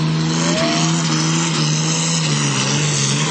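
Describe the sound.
A race car roars at speed on a track, its engine a loud, continuous, high-revving drone that holds steady throughout, with no voices.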